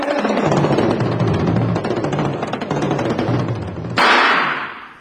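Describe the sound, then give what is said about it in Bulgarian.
Gunfire in a film scene: a loud, dense rattle of rapid shots running continuously for several seconds. “къде се стреля? А кой стреля? Тук се стреля”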